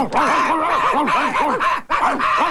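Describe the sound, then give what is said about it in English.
A wolf dog barks in a rapid, unbroken run of short, arching yelps and snarls. The sound is loud and harsh, with a brief pause near the end before the barking resumes. “Get out of here, wolf dog. You better get back to your pack.”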